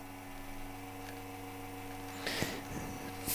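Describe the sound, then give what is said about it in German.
An ECM espresso machine pulling a shot: a steady, low electrical pump hum throughout, with a short burst of hissing noise near the end. “Druck ist super schnell da. Espresso läuft auch genau so, wie er laufen soll.”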